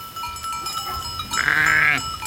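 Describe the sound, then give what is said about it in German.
A single loud, wavering bleat rises from sheep on a village pasture holding about two hundred animals. It is heard alone, with a quiet rustle before it. “Im Dorf Florescht führt der Wanderweg durch eine Weide mit rund 200 Schafen.”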